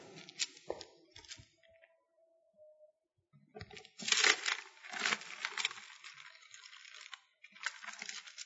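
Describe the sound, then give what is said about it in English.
Pages of a book turning: many quiet, irregular papery rustles, flicks and crinkles. They are sparse at first, then a denser, louder run of page flutters follows. “Sound of your pages turning.”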